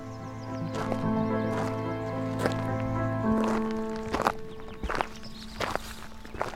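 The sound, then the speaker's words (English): Footsteps of someone walking down a lane, many irregular crisp steps and scuffs, growing more distinct later on, under a soft sustained musical backing. “Walking down this lane towards Shaw's Corner”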